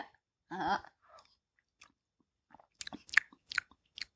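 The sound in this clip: Close-up chewing of food into the microphone, ASMR style: one burst of wet mouth noise, then many short crunchy clicks and smacks, alone and fairly quiet.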